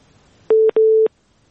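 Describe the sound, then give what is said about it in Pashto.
Telephone line tone after a dropped call: two loud, steady electronic beeps at one pitch, the second slightly longer, separated by a brief gap and followed by quiet. “بلی اړیکه شته خو غږ نه راځي. بلې زبنګه غږ اورئ تاسو؟ هلو. له بده مرغه چې اړیکه اوس پرې شوله.”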